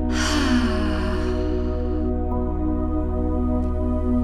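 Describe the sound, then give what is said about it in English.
A slow, deep cleansing breath during a guided body-scan relaxation meditation: a soft, airy rush that fades over about two seconds, over a steady low musical drone. “taking a few deep cleansing breaths, inhaling slowly through your nose and exhaling through your mouth.”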